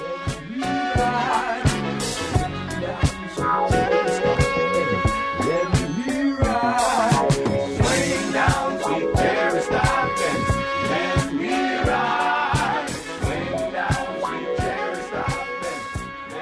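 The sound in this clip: Funk recording plays continuously, with a punchy, steady drum beat and a thick bass line under layered instruments and vocals, loud throughout.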